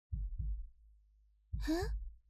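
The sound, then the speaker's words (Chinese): A racing heartbeat thumps as deep, muffled double beats: two quick thuds, a pause, then two more, with a short rising vocal sigh over the second pair. “你的心跳怎么这么剧烈啊？”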